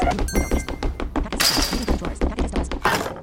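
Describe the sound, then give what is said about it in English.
A crate being grabbed in a video game produces a rapid, loud string of hollow wooden thunks and cracking, breaking-like hits in a steady rhythm, with a brighter crash partway through. “I'm going to grab this crate now, wherever it's at. It's over here.”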